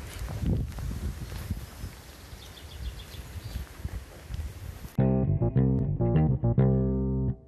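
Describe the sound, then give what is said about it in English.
Wind noise buffets a microphone while someone walks outdoors. Gusty, uneven low rumbles and rustling fill the first five seconds, then stop abruptly. “Sorry for the wind noise. As I said, I'm out walking at the minute.”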